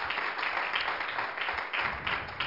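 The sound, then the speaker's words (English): Church audience clapping in praise: sustained hand claps from many people forming a steady, even crackle at moderate loudness, with small swells along the way. “If you're thankful again, acknowledge that with a hand clap of praise.”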